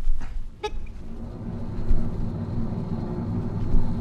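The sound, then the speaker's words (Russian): An airplane engine starting up in a children's pretend-flight scene gives a steady, low, rumbling drone throughout, with a brief tonal toot near the start. “Включается двигатель.”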